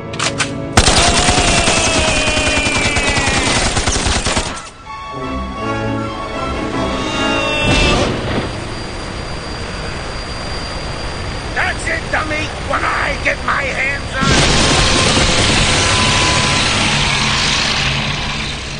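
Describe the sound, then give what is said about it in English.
Gunfire from a film scene in which a man is shot and falls into a huge spinning fan blade: loud bursts of rapid shots within a dense, continuous mix of other sound. “Wesker shoots Scarface and makes him fall into a huge spinning fan blade below.”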